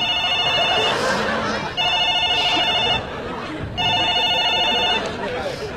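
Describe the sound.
A telephone rings in loud electronic bursts: three warbling, high-pitched trills separated by short pauses, with faint background chatter.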